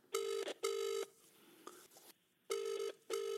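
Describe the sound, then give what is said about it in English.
A phone call rings out, the ringing tone sounding in two double-pulse pairs separated by a gap, with faint sounds in between. “Let's give him a call then, shall we? Sure, yeah, give him a call.”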